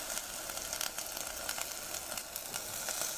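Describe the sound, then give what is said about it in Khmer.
A hissing sizzle comes as salt and clean water are added to a cooking pot for a sour soup. The bright, steady crackle carries small scattered pops and stays faint and even throughout. “មកខ្ញុំដាក់គ្រឿងដាក់អំបិលបន្តិចហើយយើងដាក់ទឹកស្អាតទាំងអស់តែម្ដង”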